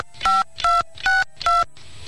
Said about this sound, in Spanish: Por favor, marque el número completo con 9 cifras del teléfono para el que va a solicitar.